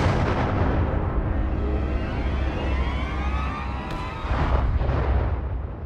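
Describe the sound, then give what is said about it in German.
Battle din from a ghetto uprising, with grenades, Molotov cocktails and gunfire raining down from roofs and windows. A dense, continuous roar carries whining tones that sweep up and down, with no distinct single shots standing out. “Von den Dächern, aus den Fenstern und von den Balkonen regnete es Molotow-Cocktails, Granaten und Kugeln auf sie herab.”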